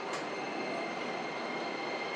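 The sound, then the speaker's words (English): A Beijing subway train pulls into Lianhuaqiao station, producing a steady, loud rumble of wheels on rail. A brief high squeal cuts in near the start and again at the very end. “We are arriving at 莲花桥 station.”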